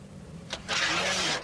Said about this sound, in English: Don't stop. Drive past.